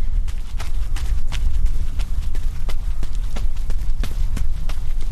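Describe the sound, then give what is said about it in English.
Running footsteps on a mile-long crushed gravel running track, many loud, crunchy footfalls in a quick, steady rhythm with no talking over them. “So I'm out here on the running track that we have behind the Rodale offices. And it's about a mile crushed gravel path that we do speed work on Wednesdays.”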